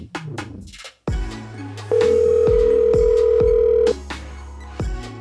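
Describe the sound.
Telephone dialing for a call: short electronic beeps and clicks surround a steady, loud held tone of about two seconds, with further tones after it and no voices.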